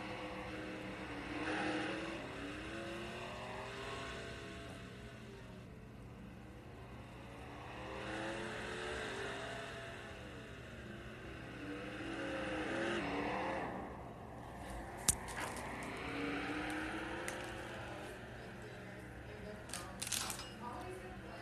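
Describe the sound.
Race car engines roar faintly during a 150-lap dirt series race on the Las Vegas dirt track, their pitch climbing and falling in repeated sweeping waves as the pack runs.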